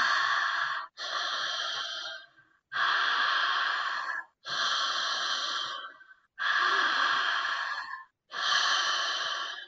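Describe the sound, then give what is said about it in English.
Rapid, forceful breathing through the mouth during a breathing exercise, air drawn into the lungs: six long, loud, breathy bursts in a steady rhythm, separated by brief pauses, with no talking. “And I'm only breathing into my lungs, and it's through the mouth. That's the speed.”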